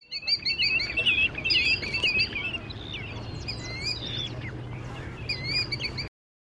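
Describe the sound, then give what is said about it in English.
Chestnut-sided warbler song: repeated high, sweet, rapid chirping phrases over a low background hum. “Chestnut-sided warbler.”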